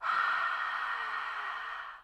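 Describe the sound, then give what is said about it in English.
A single long, open-mouthed exhale, like fogging a compact mirror, makes a soft, breathy rush of air. It lasts about two seconds and fades at the end, heard alone. “And on an exhale, we're going to make a breath as if we're fogging a compact mirror.”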